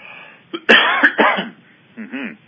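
Throat clearing: a few harsh, raspy bursts in quick succession, then a softer voiced rasp after a short pause, with no talking.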